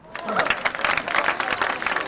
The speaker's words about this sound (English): Staff applaud him when he walks in.